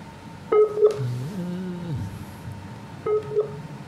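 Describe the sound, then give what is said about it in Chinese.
Short electronic phone beeps as a call is dialed, heard as two brief pairs a few seconds apart. A low, wavering murmur fills the gap between them. “得咗个电话号到，系咪嗰个人终于卒之？我谢生系嘛？好，听到个电话先。”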